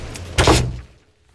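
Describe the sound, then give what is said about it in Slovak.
A door is pushed shut with a single dull, heavy thunk that swells briefly and then fades quickly into quiet. “Zatvor dvere a zamkni.”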